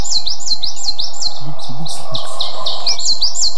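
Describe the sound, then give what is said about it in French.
Coal tit, a conifer-loving forest bird, calling in a quick run of high, thin repeated notes that carries on through the whole clip. “La mésange noire, qui adore les conifères, elle. On voit bien, on la trouve en altitude.”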